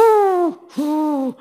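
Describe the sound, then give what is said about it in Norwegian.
A human voice imitates the cooing of a wood pigeon in a forest: two drawn-out, low, hooting notes separated by a short pause, steady in pitch, with nothing else around them. “Eller hvis du i skogen, så hører du en skogdua som gjør sånn,”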